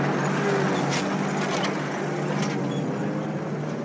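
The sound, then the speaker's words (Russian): A truck speeds off down a dusty road, making a steady, loud, broad roar of engine and road noise that holds unchanged throughout. “Грузовик Андрея срывается с места и несется по пыльной дороге.”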